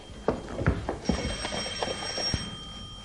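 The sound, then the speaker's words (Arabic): A telephone rings with a steady, high electronic tone over a run of sharp, evenly spaced clicks, fairly faint throughout. “ألو من رنة التليفون عرفتك”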